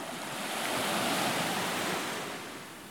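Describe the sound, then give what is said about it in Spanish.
Sea waves wash onto the shore at Bahía Solano, a broad, roaring surge that swells to a peak and slowly recedes. “Estas son las olas de la mar, olas que vienen y olas que van.”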